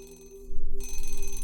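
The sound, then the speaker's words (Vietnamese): An alarm clock rings in the morning. A steady electronic tone holds for about half a second, then turns into a loud, rapidly pulsing ring that continues to the end. “Tiếng chuông báo thức làm cho Ánh tỉnh giấc.”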